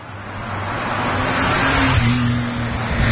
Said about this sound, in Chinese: 一辆汽车飞快地从他们身边开过去了，呼啸的声音帮助他们结束了这场尴尬的谈话。